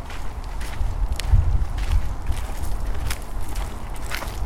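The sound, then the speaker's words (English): Footsteps of people walking outdoors: a steady series of soft, regular steps over a constant rustling background, with no talking. “Is this part of your daily routine, just spending some time walking?”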